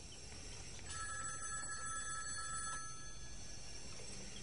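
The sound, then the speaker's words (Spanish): A telephone rings indoors in one faint, trilling burst that lasts about two seconds, then stops, leaving quiet background hiss. “¿Puedes contestar, por favor? Em, Vera coge el teléfono.”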